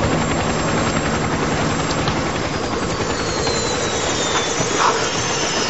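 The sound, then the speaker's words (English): A helicopter landing, its rotor beating in a fast, even thump beneath a loud, continuous engine roar and whine that holds steady throughout. “As Miles walks down the road, a helicopter lands.”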